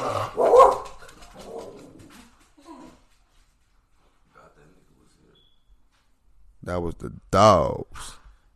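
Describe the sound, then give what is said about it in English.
Dogs barking: a few loud, sharp barks arrive in a quick burst near the end, after some earlier muffled noise and a stretch of near silence. “That was the dogs.”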